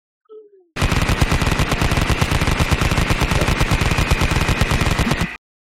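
Rapid automatic gunfire from the video game Call of Duty: one loud, unbroken burst of evenly spaced shots that starts and stops abruptly and stands alone.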